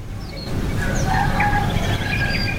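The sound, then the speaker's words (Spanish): Rooster crowing faintly in the background, a single drawn-out crow over a steady low rumble with no voices. “Ahora tenemos hasta un gallo de fondo.”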